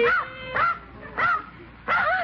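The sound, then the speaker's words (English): Dog yelping and whimpering after rushing in through a back door: four short, high, arching cries separated by brief pauses, fairly loud with nothing else over them. “a dog. I just opened the back door and in he flew.”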